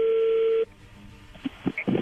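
A telephone call's ringing tone holds steady for just over half a second, then cuts off as the call connects, leaving faint low noise and a few soft clicks.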